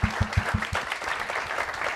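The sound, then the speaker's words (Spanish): An audience applauds a speaker, a teacher, at a public discussion: a lively round of many hands clapping, with a dense, steady patter that stays fairly even in loudness. “Bien, un aplauso a la maestra Toledo, por favor.”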